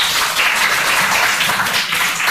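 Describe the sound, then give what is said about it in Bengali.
Applause follows a sung performance, thick and steady clapping from many hands that stays loud and even throughout. “নমস্কার, ধন্যবাদ তোমাকে, হাততালি দাও একটা।”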